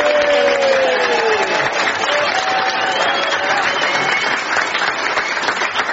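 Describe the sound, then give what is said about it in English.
Audience applause at a comedy panel quiz show, greeting the winning contestants: dense, steady clapping that holds at an even loudness for the full six seconds. “let's hear it for the current crop, John and Lucy.”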